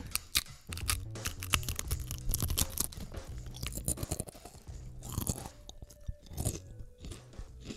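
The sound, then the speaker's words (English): Crisps being eaten with many irregular crunches and wet chewing sounds, loud and close, no talking over them. “Good noise. Eating crisps.”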